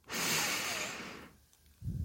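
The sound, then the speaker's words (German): A single deep breath drawn in during a guided relaxation exercise: a soft, airy rush that lasts just over a second and then stops, followed briefly by a low murmur. “Jetzt atme einmal tief ein”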